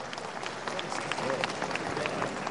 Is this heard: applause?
yes